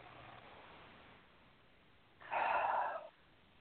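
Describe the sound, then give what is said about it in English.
A single deep breath taken during a guided relaxation and release exercise comes through as a steady, airy rush lasting under a second, rising clearly above an otherwise quiet, hissy background. “Take a nice deep breath.”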